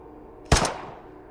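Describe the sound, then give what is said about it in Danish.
A single gunshot from a black pistol: one sharp, loud crack with a short decaying tail, standing alone against a quiet background. “Han kiggede på hende, helt roligt, hævede hånden og pegede på hende med en sort pistol. Så skød han.”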